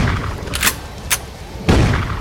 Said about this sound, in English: Come on, shoot him. Shooting with the shotgun.